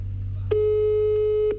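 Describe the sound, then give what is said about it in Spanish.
A telephone line rings on an outgoing call with a single steady, mid-pitched tone lasting about a second over a low hum. “Está timbrando.”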